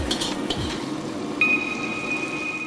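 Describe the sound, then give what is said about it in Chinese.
A spoon stirring a thickening sauce in a pot as starch slurry is poured in for a shrimp roe dish: light metallic clinks at first over a steady soft sizzle, with a thin high whine joining halfway. “一边倒入水淀粉，一边要用勺子不停地搅拌，把它打上劲”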